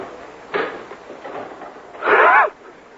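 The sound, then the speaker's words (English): Someone tries to open a locked jail door. A sharp knock comes first, then a louder, grinding rattle of the door about a second and a half later. “Locked. Anyone in there? Open up. Go away. Locked out of your own jail. Open the door.”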